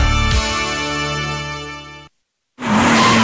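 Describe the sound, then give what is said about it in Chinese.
A race car's engine holds a steady, high harmonic drone at full throttle on the final long straight after turn 17, shifting into ninth gear toward top speed. It cuts abruptly to silence, then returns as a rushing, noisy roar. “快看，车手飞速驶出17号弯，来到了最后的大直道，油门到底，变速箱升入第9档，车辆到达极速”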